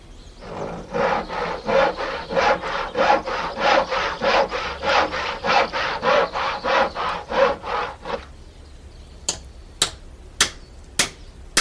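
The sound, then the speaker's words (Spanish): A handsaw cuts through firewood in many steady, rhythmic back-and-forth rasping strokes, then stops and is followed by a few sharp, dry knocks. “Alcánceme el serrucho. Tome.”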